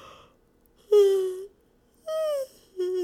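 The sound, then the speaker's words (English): Yawning voice during a reach-and-stretch to one side: three drawn-out voiced yawns, each sliding downward in pitch, with the last cut off at the end. There is no talk. “If you reach up on one side and yawn,”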